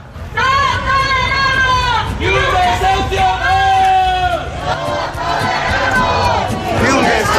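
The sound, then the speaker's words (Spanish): A protest rally outside the Urbagestión headquarters in central Valladolid: a loud crowd chants and shouts slogans in unison, the voices rising in repeated, sustained phrases over a constant babble. “Es el sonido de la concentración convocada frente a la sede de Urbagestión en el centro de Valladolid.”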